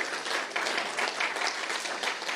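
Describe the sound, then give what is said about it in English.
Audience applause at a gathering as two people who help run a community centre stand to be thanked: steady, dense clapping that holds at an even level from start to finish. “Could you give them a round of applause too?”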